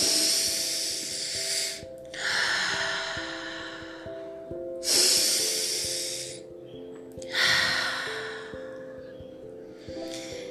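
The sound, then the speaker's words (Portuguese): Deep breaths drawn in through the nose and released through the mouth during a guided breathing exercise. Long airy rushes repeat in a slow, steady cycle over soft sustained music. “puxa o ar pelo nariz e solta pela boca. Vamos lá. Puxa o ar de forma profunda e solta pela boca.”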